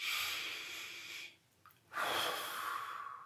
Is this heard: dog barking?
no